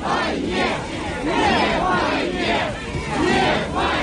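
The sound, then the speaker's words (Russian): A dense crowd of mourners at a Moscow cemetery, gathered for the funeral of a Russian opposition politician; many voices shout or chant together, swelling loudly in repeated waves throughout. “Звуки, которые вы сейчас слышите, это голоса людей, которые пришли проститься с российским оппозиционным политиком на Борисовском кладбище Москвы.”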